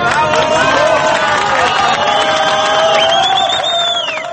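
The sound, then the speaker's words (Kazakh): A crowd cheers and whoops as the first trapped Chilean miner is hoisted from the mine in a rescue capsule. The cheering is loud and sustained, with high whistles and shouts rising through it. “Жер астынан алгачкы кеншини көтөрүп чыгарганда жыйналган жұрт зор кубаныч менен каршы алды.”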